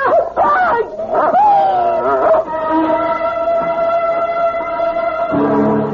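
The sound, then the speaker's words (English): A dog barks and whimpers in a few sharp, high cries that waver in pitch, then a steady held tone continues loudly underneath. “It's only a dog, for Pete's sake. He's not going to hurt you.”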